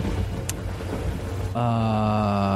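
Thunder during a storm, a dense, loud low rumble blended with rain-like hiss, with a sustained humming tone entering partway through and holding to the end.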